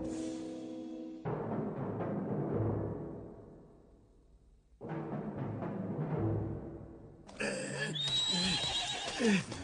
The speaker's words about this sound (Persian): ای پادشاه، این اسب را بر بالای برج یافتیم. در عمر خود اسبی به این زیبایی ندیده بودم.